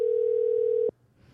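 A telephone gives the ringing tone of an outgoing call: a single steady, mid-pitched tone lasting just under a second, then cutting off abruptly into faint hiss.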